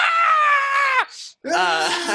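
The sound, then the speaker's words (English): A voice imitates two fantasy creatures screaming at each other, one of them a small badger-headed being. A long, strained, high shriek stops briefly, then a second wavering scream follows. “they're just both screaming at each other like, oh my god, Damien, you found them!”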